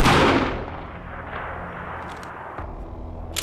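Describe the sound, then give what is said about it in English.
A warning gunshot in the film Northspur: one loud, sharp blast at the start that decays into a long rumbling tail. “The warning shot's going to keep them away.”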